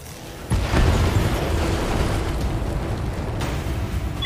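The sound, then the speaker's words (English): A tank blows up in a video game: one sharp blast hits at about half a second, then gives way to a long, heavy rumbling roar that stays loud and fades only slightly to the end. “So we're going to blow up this tank.”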